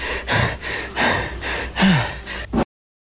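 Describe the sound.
Wheezing breath from a man, a few heavy, gasping breaths in uneven bursts, one carrying a brief squeaky tone, with no talk.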